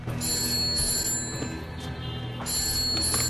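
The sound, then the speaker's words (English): A telephone rings in a hotel room in two bright, trilling electronic bursts separated by a pause of about a second. The ring is steady and loud, with no voices. “Daniels looks around nervously as the phone rings”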